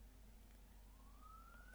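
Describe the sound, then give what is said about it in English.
A faint police siren sounding outside: a thin, steady wail that climbs gradually in pitch, lying low beneath a constant background hum with no talk. “There's police sirens outside.”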